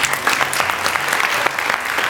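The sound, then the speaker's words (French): Audience applause at a contestant presentation evening, steady dense clapping from a crowd that stays loud and even throughout. “Sous vos applaudissements, s'il vous plaît.”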